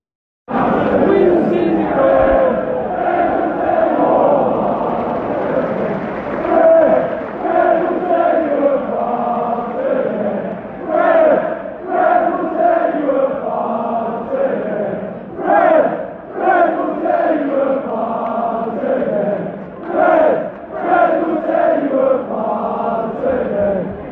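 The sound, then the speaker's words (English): Football fans chant inside Old Trafford during Manchester United against Spurs, singing for a popular Brazilian player. The loud, continuous massed singing holds a steady rhythm with rising and falling phrases for the whole stretch. “here are some quick thoughts from Harry after the game, as well as some sound from inside Old Trafford against Spurs, featuring a chant for a very popular Brazilian around Manchester.”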